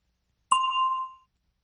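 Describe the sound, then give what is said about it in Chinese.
A single clear bell chime, used as the cue to answer in a listening exercise, rings alone with a bright, ringing tone that holds for about half a second before fading out. “请听众在听到铃声以后回答。”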